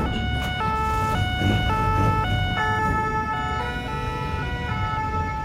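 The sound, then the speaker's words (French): Sirens of fire engines and gendarmerie cars converging on a village wail loudly in a continuous two-tone pattern, several high and low tones alternating steadily and overlapping, with no voices. “Le calme qui règne habituellement est remplacé par le hurlement des sirènes de dizaines de camions de pompiers et de voitures de gendarmes qui convergent.”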